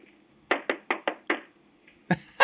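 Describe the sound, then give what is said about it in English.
Knocking on a door: five evenly spaced raps, then a pause and two sharper, louder knocks, with no voices. “That's what the sound is. I'm here to make amends. Okay. There you go. Knocking on the door.”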